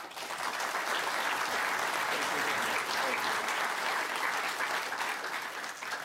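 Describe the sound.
Audience applause welcomes a speaker at a lecture at the Virginia Museum of History and Culture: dense, even clapping from many hands, loud and sustained for the whole stretch without a break.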